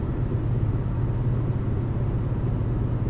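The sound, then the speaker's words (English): Steady low engine and road rumble from a car on a late-night drive, a continuous, even drone with no talk. “Anyway, folks, it's a late night drive.”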